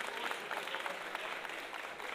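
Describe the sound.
A studio audience applauds a chef on a cooking show with a faint, steady, dense clatter of many hands clapping together for the whole stretch, without any clear voices.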